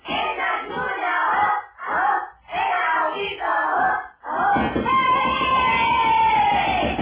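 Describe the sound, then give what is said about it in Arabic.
Children play and shout in the street, with loud overlapping voices and crowd-like clamor broken by a few brief pauses. “ايه ده؟ مين دول؟ دي العيال بتلعب في الشارع يا ابني.”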